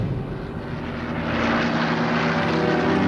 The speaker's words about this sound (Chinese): 台风战斗机轰炸了一早上，阻止了德军的攻势。